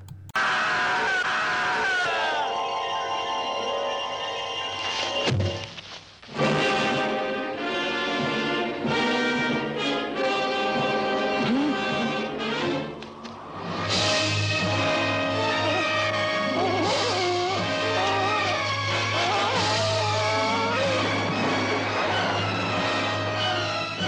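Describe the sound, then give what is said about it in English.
Trailer audio for the film 5 Scarecrows: loud, dense music layered with screaming and groaning, cut by a sharp break early on and a brief dip about halfway through before the music surges back. “And now we're going to play the trailer for that.”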